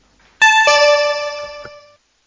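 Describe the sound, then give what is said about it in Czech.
A two-note electronic signal tone marks the start of voting in a council meeting. It rings as a bright, harmonically rich chime that holds steady for about one and a half seconds, then fades gradually. “budeme tedy hlasovat po zvukovém signálu o navrženém usnesení, kdy schvalujeme. Zahajuji hlasování.”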